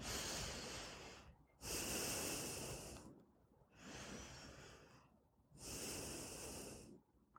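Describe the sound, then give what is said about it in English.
Slow, deep meditative breathing: long, airy inhales and exhales in four even phases, soft and alone, with brief silent gaps between them. “Let's breathe.”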